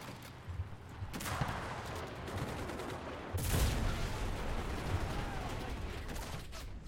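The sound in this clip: Tank cannon fire from high-explosive shells in a video game, with two sudden heavy blasts over a steady rumbling wash of battle noise that continues throughout.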